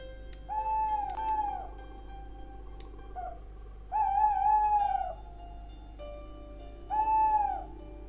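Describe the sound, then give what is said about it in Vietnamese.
An owl hoots at night near a house, giving three separate hooting calls spaced by pauses over a low, steady background hum. “Không hiểu làm sao đêm qua đến giờ con cú cứ tìm đến nhà ông mà réo gọi rợn cả người.”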